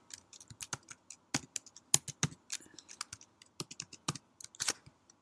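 Typing on a computer keyboard while entering letters from an image into a web form: many quick, irregular keystroke clicks in short bursts with brief pauses, crisp and alone.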